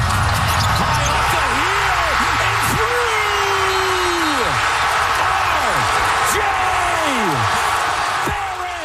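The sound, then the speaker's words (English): Basketball action from a Raptors versus Cleveland playoff game in Toronto, with the ball bouncing amid loud, continuous crowd noise and an excited commentator talking throughout. “Mississauga's own RJ Barrett sank that epic final shot after the ball bounced more than 2 meters straight up off the rim before dropping.”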